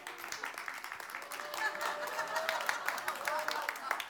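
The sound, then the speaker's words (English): Scattered audience applause during a church sermon, fairly quiet, with voices and a little laughter mixed in among the claps. “And here's why, which your applause kind of confirms it.”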